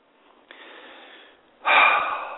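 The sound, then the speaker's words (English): A very deep breath: a long, soft, airy breath sound, then a second, louder and rougher rush of air that slowly fades. No voices are heard. “I take a very, very deep breath because we want to end on a more positive note.”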